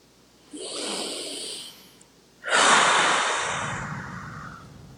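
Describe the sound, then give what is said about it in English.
Two long breaths, taken slowly during a guided relaxation exercise: a hissy drawn breath lasting about a second, then after a pause a louder, longer breath that fades away gradually. “I would like to invite everyone listening right now just to take a few breaths.”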